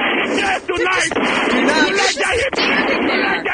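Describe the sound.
Gunfire in a video game, fired at people after tear gas failed, with sharp bursts punching through a dense, loud wash of game noise.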